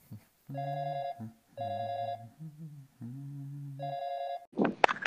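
Ringing of a telephone on an outgoing call: three bright, harmonic ring bursts about half a second each, with lower tones in the gaps between them, ending in a brief noisy clatter.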